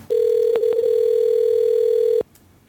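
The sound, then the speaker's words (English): A telephone ringback tone sounds as a call goes unanswered: one steady, mid-pitched tone lasting about two seconds, with a couple of faint clicks, before it cuts off to quiet line hiss. “Of course, now his phone's not gonna pick up.”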